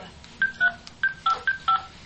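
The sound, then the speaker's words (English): Telephone keypad dialing tones: six short beeps of slightly differing pitch, pressed in a quick, uneven sequence over a faint low background hum. “Phone dial tone. Sweet. So I'll dial 800-555-TELL.”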